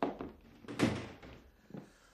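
A door handled as a visitor is let into a home: a few faint, muffled thumps and knocks, the heaviest partway through, with a softer tap near the end and no talk.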